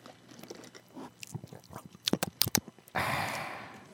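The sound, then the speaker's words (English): Close-miked drinking: a string of wet slurping and gulping clicks at uneven intervals, ending in a loud, sustained breathy rush. “Okay, pardon me. I need to take a drink. I know how much you guys love it when I take a drink on mic.”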